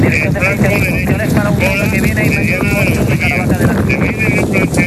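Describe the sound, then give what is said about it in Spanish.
Strong wind roaring and buffeting the microphone at a wildfire on dry terrain, a dense, constant rush with indistinct voices mixed in throughout. “Como puedes escuchar, el fuerte viento y las condiciones del terreno tan seco han complicado mucho las labores de extinción, que continúan hasta ahora.”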